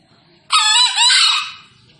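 A wild green junglefowl, released free, gives a single loud, harsh crowing call about one meter away. The short two-part call bursts out suddenly, then fades, with near-silence before and after.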